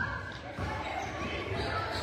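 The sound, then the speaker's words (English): A basketball being dribbled on the court during a women's game, with soft, muffled bounces under a steady hum of gym noise and a commentator's voice. “She's dribbling around.”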